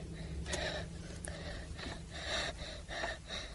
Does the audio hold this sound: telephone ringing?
no

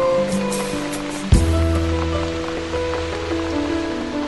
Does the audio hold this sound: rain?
yes

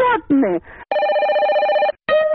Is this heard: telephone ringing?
yes

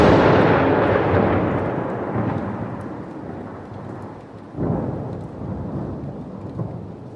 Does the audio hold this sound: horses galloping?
no

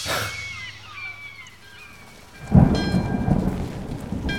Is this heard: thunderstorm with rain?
yes

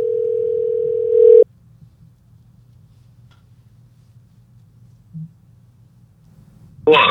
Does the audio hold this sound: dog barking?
no

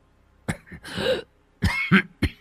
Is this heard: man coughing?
yes

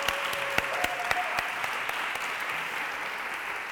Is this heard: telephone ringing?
no

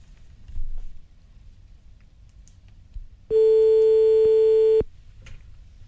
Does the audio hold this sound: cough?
no

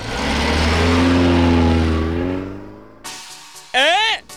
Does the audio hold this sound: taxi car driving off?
yes

